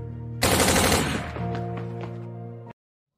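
Rapid gunfire from a 9mm semi-automatic assault pistol: a loud, continuous rattling burst that starts suddenly, runs for a little over two seconds with a ringing metallic tone, then cuts off abruptly into silence.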